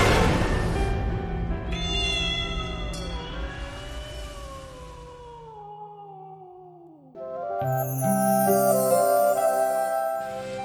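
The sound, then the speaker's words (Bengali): A cat cries at night: a long, drawn-out wailing cry that slides steadily downward in pitch, followed by a brighter, higher-pitched cry. “শুনছ, দেখো দেখো বিড়ালটা আবার কাঁদছে, কাল রাত্রের মতো।”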